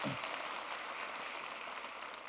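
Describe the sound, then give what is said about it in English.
A church audience gives a round of applause to welcome newcomers. The clapping is soft and fairly uniform, a low, steady patter that continues for about two seconds. “Hey, One Family, can you give them a round of applause so that they know we welcome you?”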